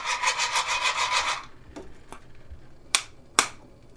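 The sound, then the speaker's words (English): Green coffee beans are roasted over charcoal and shaken in a pan, making a rhythmic rasping rattle. After the shaking stops, a few sharp, isolated pops crack out from the beans. “traditionally on charcoal, and you're shaking it, you're sort of touching it and lifting it up so that it doesn't burn, right? To get more even roasting. Yeah, and you do it roasting. Like 1, 2, 3, 4, and put it back. So now it start to. So you're gonna hear it pop.”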